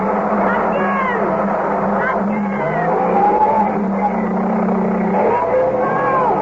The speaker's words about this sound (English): Again! Again! No! Give it more! Oh, God, the wheels are spinning.